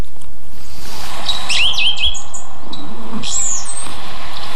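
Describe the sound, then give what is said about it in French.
A blue tit sings a few short, high, thin chirping notes in quick bursts, clear and loud against a faint background hiss, with no voices. “Un mésange bleu. Une très commune aussi, mais très discrète.”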